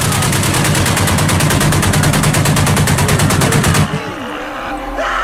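Rapid machine-gun fire shooting at people rattles in one loud, unbroken burst of fast, evenly spaced shots for about four seconds, then cuts off, leaving quieter sounds behind.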